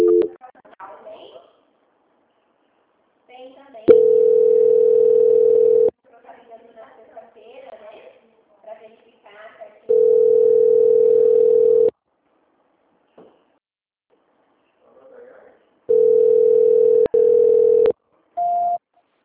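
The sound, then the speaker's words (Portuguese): Telephone call transfer tone: a steady, mid-pitched electronic tone sounding in a few sustained blocks of about two seconds each, separated by silence and short stretches of faint voices on the line. “Eu vou transferir novamente a ligação, faltou um documento, tá? Tá bom. Obrigada. Transferência.”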